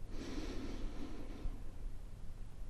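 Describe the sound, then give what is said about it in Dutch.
A slow, deep inhale through the nose during a guided meditation, a soft airy hiss lasting about a second and a half before fading into quiet. “Adem diep in door je neus.”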